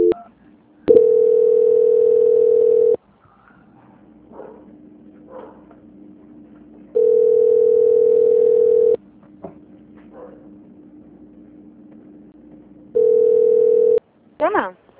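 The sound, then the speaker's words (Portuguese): Telephone line tones sound while a dropped call is transferred: three steady, evenly pitched tones, the first two about two seconds long and the last shorter, separated by long pauses with faint low sounds between them. “caiu a ligação. Só um instante. Transferência.”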